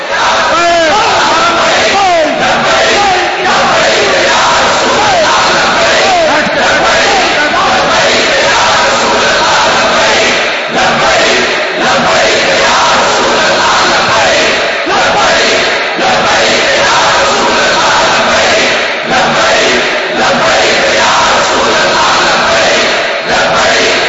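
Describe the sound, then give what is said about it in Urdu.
A large crowd chants the religious slogan 'Labbaik ya Rasool Allah' in unison at a gathering in Pakistan. Many voices keep up a loud, continuous, surging roar for the whole stretch. “لبے لبے لبے یا رسول اللہ, سارے بولو”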